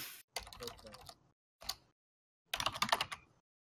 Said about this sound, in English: who's on cherry keys on a mechanical keyboard?